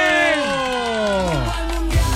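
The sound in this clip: An audience at a live event cheers, several voices whooping together in long, loud calls that slide downward in pitch, with a final burst near the end.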